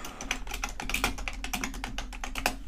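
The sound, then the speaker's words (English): A computer keyboard is typed on hard and loudly during a web search, with many quick, irregular clacking keystrokes in close succession and no talk over them. “I'm going to type really loud.”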